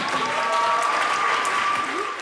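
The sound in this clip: Children applauding in a room after a vote: dense, even clapping that holds steady for the whole stretch and eases slightly at the end.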